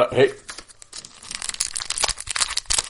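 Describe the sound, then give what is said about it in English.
A pack of hockey cards is torn open, giving a quick run of crisp crinkles and rips that grows busier toward the end, with a brief voice at the very start. “Pack of hockey cards. We're going to open those.”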